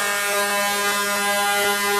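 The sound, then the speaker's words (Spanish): An air horn blasts one loud, continuous buzzy tone that holds steady without a break for the whole clip. “Vea, a mí me gusta, por ejemplo, este pito, vea. Este pito me encanta, o sea, cosa buena, cosa linda.”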